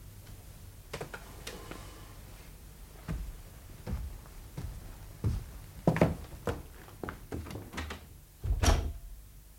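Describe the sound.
A door being opened and shut, heard as a quiet series of clicks, knocks and soft thumps, with a heavier thud near the end and no talk.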